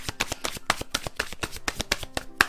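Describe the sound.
Oracle cards being shuffled by hand: a fast, steady run of many crisp papery riffles and taps that continues throughout, with no voices.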